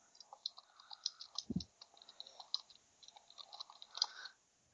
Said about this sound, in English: Who's tippy typing?